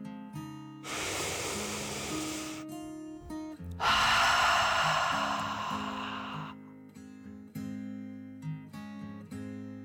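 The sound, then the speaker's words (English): A deep, exaggerated breath in and then out, like a dragon's, as two long airy rushes of a few seconds each, over soft sustained background tones. “he took one more deep dragon breath in and out.”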